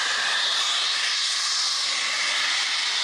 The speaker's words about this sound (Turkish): çıkan gaz metrelerce yükselirken yoğun ses nedeniyle ekipler kulaklarını kapatmak zorunda kaldı. Doğalgaz borusu delindi, gaz metrelerce havaya yükseldi.